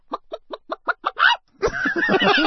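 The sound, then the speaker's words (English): A person imitates a chicken clucking with a quick, evenly spaced run of short clucks, then a longer squawk. After a brief pause comes a busier, louder stretch of cluck-like sounds. “So he can cluck for us.”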